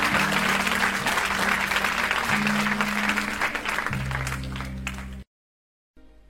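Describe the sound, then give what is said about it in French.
Congregation applauding at a church service, a loud, dense wash of clapping over sustained low tones that gradually fades, then an abrupt cut to silence before a faint resumption. “Peut-on acclamer le Seigneur pour nous-mêmes et pour l'expression d'impact aussi, que Dieu vous bénisse.”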